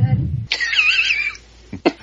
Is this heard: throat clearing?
yes